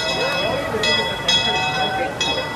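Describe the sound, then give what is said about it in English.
A theme park railway train rings its bell as it pulls into a station on a staff preview day. Steady rumbling train noise runs throughout, and a few bright, ringing bell strikes sound at uneven intervals. “That's the sound of the famous Disneyland train pulling into the Main Street station on a preview day for employees this week.”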